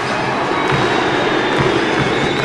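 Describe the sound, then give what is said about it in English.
Students nicknamed the Orange Crush cheer from the sidelines at a college basketball game, a loud, dense, continuous crowd roar that holds steady for the whole moment. “Lining the court are students, nicknamed the Orange Crush, who erupt into cheers.”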